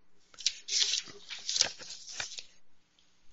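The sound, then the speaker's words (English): Cards being shuffled and one drawn from a deck of reading cards make a few bursts of crisp, papery rustling and flicking, then fall quiet near the end. “And sure, we'll pull you a card here before we wrap up.”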